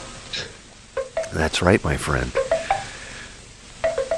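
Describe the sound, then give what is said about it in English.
A Maxwell House coffee pot brews with a steady hiss and sputtering, bubbling gurgle, and a voice talks briefly over it. “Listen to the sound of the Maxwell House coffee pot at work.”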